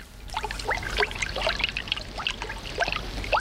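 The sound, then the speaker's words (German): Water gushing and bubbling from a leaking tap, a continuous stream of many small gurgles and splashes at a steady, moderate level. “Sie warten auf den Klempner, weil der Wasserhahn tropft. Doch es kommt schlimmer. Schon sprudelt es wie eine Quelle.”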